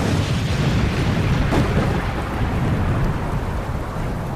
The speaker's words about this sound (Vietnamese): Chưa mắng hết câu, lại nghe một tiếng nổ rền vang như sấm.